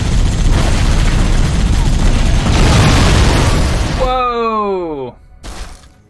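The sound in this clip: Gunfire and explosions in a video game: dense, rapid booming bursts run loud for about four seconds, followed by a falling, whining tone and then one more short blast.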